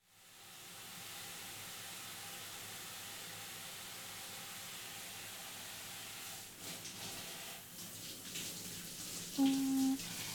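Warm water is rinsed over someone during a hair wash, a soft, steady hiss of running shower water that continues evenly, turning more uneven splashing toward the end, with a brief faint tone near the close.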